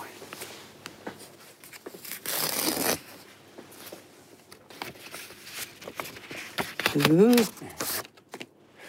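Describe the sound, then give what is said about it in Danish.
A paper envelope is torn open with one short, bright ripping burst that stands out from the surrounding talk, followed later by a brief rising vocal sound. “Nu har jeg noget til dig. En lille kuvert her, ja. Som jeg gerne vil have. Du skal åbne.”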